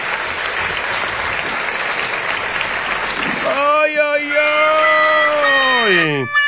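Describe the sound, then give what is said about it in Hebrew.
Applause from a crowd: dense, even clapping for about three and a half seconds, then a loud, steady harmonic tone that holds and drops in pitch at the end. “כפיים ממומן”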